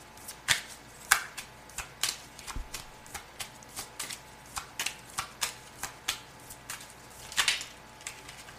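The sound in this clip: Playing cards being shuffled and drawn, one after another: many crisp, papery snaps and flicks in an irregular rhythm, with a few louder slaps standing out and no talking.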